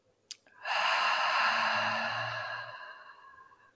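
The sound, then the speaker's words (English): A single deep breath taken during a guided meditation: a soft, airy rush that swells quickly and then slowly fades over about three seconds, alone in quiet. “we're just going to take one final breath. Breathe in and breathe out.”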